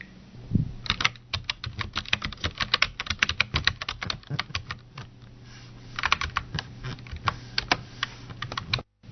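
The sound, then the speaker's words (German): Typing on a computer keyboard while a search term is entered: many quick, irregular key clicks in short bursts with brief pauses, fairly soft and without talk. “gib bitte mal in die Suchmaschine UN-Dekade ein.”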